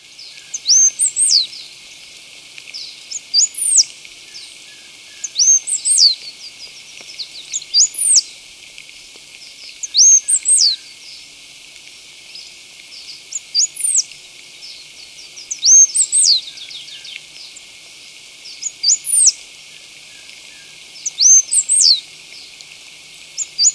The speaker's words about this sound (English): striped-headed brush finch.